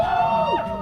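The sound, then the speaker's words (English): A crowd of about 40 protesters gathered outside a Royal Canadian Legion hall in Happy Valley-Goose Bay, Labrador, heard in a brief burst of sustained, overlapping raised voices that sounds like chanting or shouting. “That's the sound of around 40 protesters who gathered outside the Royal Canadian Legion in Happy Valley Goose Bay on Tuesday”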